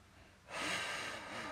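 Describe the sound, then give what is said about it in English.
One deep inhale through the nose follows a brief quiet pause. It is a soft, airy rush that swells quickly and then holds steady for about a second at low volume. “Take another deep breath for me,”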